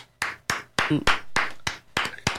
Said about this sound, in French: On t'applaudit.